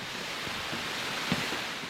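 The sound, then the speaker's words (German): Rushing water of a waterfall below a famous monastery in Bhutan, a steady, dense hiss and roar that stays even in loudness throughout without clear breaks. “Ein Wasserfall unterhalb eines Klosters, eines sehr berühmten Klosters.”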